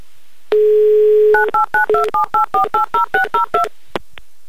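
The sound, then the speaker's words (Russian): A telephone number is dialed. A steady dial tone lasts about a second, then around a dozen quick touch-tone beeps follow, and two brief clicks end it. “Угу, уже и первый гудочек. Как хорошо, что мы так быстро дозвонились в Чебоксары.”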